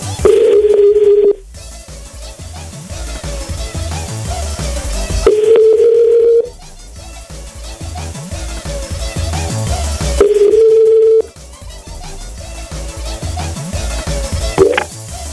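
A steady telephone dial tone sounds while a number is dialed on an awkward handset. The tone comes in three separate bursts, each lasting about a second, with stretches of other background sound between them.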